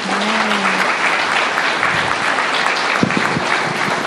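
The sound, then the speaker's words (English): Audience applause at a meeting: steady, dense clapping from a crowd that continues at an even level for the whole stretch. “Yay, let's give Peter another hand.”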